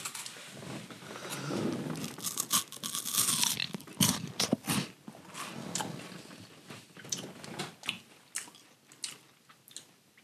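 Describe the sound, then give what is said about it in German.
Someone bites into a Hanuta-style wafer bar in bar form, followed by many loud crunchy bites and chewing sounds at an uneven rhythm. “Ich beiße einfach mal rein.”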